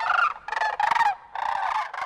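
Sandhill cranes give rolling, rattling contact calls while flying overhead during migration. Several loud, overlapping bursts of calls follow one another in quick succession, with no voices.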